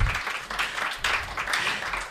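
Audience applause at a live book reading: steady, dense clapping from a crowd that holds for about two seconds with slight dips in intensity, no voices on top.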